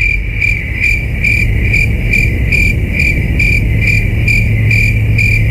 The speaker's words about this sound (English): Is the answer crickets?